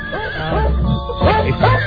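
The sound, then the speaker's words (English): A horse or pony neighs in a loud, wavering whinny, its voice rising and falling in several quick pitch swoops across two seconds. “Pony time, pony time. Daddy's got a horse.”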